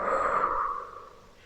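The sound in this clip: A single forceful, breathy exhale during a guided breathing meditation, loud at first and then fading away over about a second and a half.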